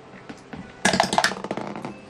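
Dice clatter down through a dice tower in a quick burst of many hard, bright clicks and rattles that start suddenly and thin out over about a second.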